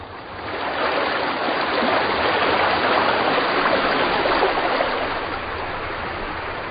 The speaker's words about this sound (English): When spring comes to Siberia, the floodgates open.